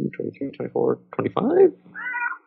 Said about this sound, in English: Punctuated by cat.